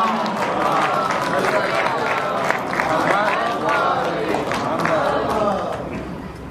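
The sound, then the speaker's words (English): A crowd loudly recites salawat in unison to welcome a speaker at an interfaith conference. The dense, sustained swell of many voices holds steady, then eases off near the end. “So please welcome him with the loudest of salawat and Muhammad.”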